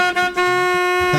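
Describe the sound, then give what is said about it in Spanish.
A car horn honks in one sustained, buzzy blast that holds a steady pitch and stays loud across its length, with two brief dips in volume near the start. “Ahora sí tengo pito.”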